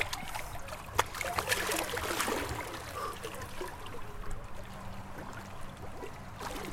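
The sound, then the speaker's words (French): Water sloshing and lapping in a pebble-lined swimming pool as someone swims through the cool water, a continuous soft wash with occasional small splashes and no clear voices. “le temps se retrouve rythmé par le bruit de l'eau en mouvement”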